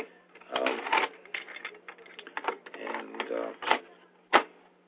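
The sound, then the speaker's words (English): A cassette tape being turned over in a tape recorder: mechanical clicks and rattling handling noises over a low hum, ending in a sharp clunk. “We're going to continue this. I just have to turn over the tape.”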